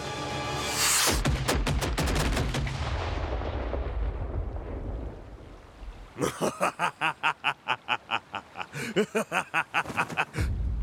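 Gunfire erupts in a dense, loud volley that decays into a rumbling tail. After a quieter stretch, a long run of rapid, evenly spaced shots follows, many sharp bursts in steady rhythm.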